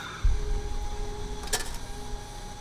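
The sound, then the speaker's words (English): A coffee vending machine hums steadily as coins go in and buttons are pressed. A dull thud near the start and one sharp click later stand out over the constant mechanical tone. “As you get to the coffee machine, he slides in some coins, presses a few buttons.”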